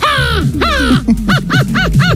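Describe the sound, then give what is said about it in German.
A 12-year-old boy imitates a crow's caw: two long, harsh calls that fall in pitch, then a quick run of shorter arched caws. The calls are loud and heard alone, with no other voices. “Der geht gerade viral auf Insta, er kann Vogelstimme nachmachen. Die Krähe.”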